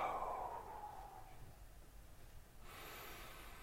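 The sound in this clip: A long exhale after a held breath in a guided breathing exercise: a steady, airy rush of breath that carries on for several seconds at an even, moderate loudness.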